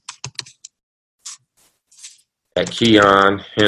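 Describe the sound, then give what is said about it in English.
Keys clicking on a computer keyboard as an email address is typed: a quick run of sharp taps, then a few scattered single clicks, followed by a voice speaking. “And I think I might be able to myself type it in.”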